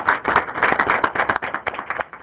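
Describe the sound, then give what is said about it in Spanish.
Brief audience applause greets a professor at an academic seminar. The clapping is quick and irregular, a short burst of overlapping claps that stays fairly even before thinning out. “Un aplauso para el profesor José Alejos García.”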